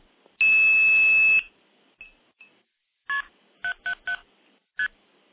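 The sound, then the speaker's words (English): Blue box multi-frequency tones dialing a code over a SIP connection into a phone system: one long, steady, high tone, then five short, sharp tone bursts in quick succession. There is no talk. “I do have a direct SIP connection into Telefreak that can be dialed using a blue box. That's with KP777START, and that's not a telephone code.”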